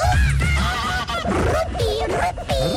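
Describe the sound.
Loud honking bird calls, goose-like, used as a sound effect: many harsh, nasal honks overlap continuously, wavering up and down in pitch with no pause and no talk.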